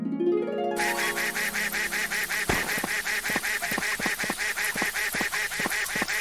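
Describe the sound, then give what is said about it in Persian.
Duck quacking in a video game, a duck whose call turns thinner when it is far from the umbrella; a brief tonal opening gives way to many rapid, evenly spaced nasal quacks that repeat in a steady rhythm. “این صدای اردکه که اگه از چترتون دور باشه صداش نازکتر میشه.”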